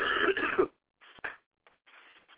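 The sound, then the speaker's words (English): Coughing from a sick person: a loud, rough cough opens, then after a short pause come a few shorter, fainter coughs and throat-clearing sounds. “I'm kind of sick right now, too, by the way. That's why I keep on coughing.”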